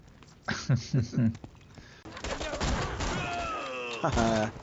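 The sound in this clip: Gunfire in a Ninja Turtles video game during the Splinter Group mission: bursts of shots mixed with other game sounds, with people talking over the action.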